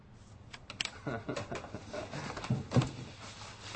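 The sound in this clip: Typing on a computer keyboard while posting to a blog's message board: many quick, irregular soft clicks in uneven bursts.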